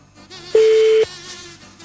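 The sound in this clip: A telephone ringing tone on an unanswered call: one steady, mid-pitched beep lasting about half a second over a faint background hum.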